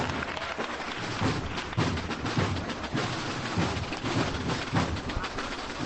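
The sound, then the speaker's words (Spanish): Clapping from the street crowd on calle Orfila in Seville greets a Holy Week procession, continuous applause layered over regular, steady drumbeats. “Y ahora sí, acaba la marcha y a tambor avanza más rápidamente con los aplausos de la calle Orfila.”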